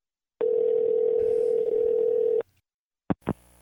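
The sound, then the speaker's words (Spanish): A telephone dial tone on an outgoing call holds steady for about two seconds, then stops and gives way to a couple of short clicks. “Vale, voy a llamarles y a ver qué dicen. Vamos a probar la llamada, a ver.”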